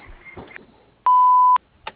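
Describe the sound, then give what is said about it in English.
An answering machine beep before a message is left: a single steady, mid-pitched tone about half a second long, with brief faint noises before and after it. “Please leave a message at the beep, and we'll get back to you as soon as possible.”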